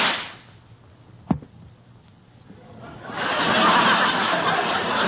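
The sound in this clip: A single sharp gunshot crack rings out at a rabbit perched on a rock, after a quiet moment. A few seconds later a broad, sustained rush of noise rises and holds.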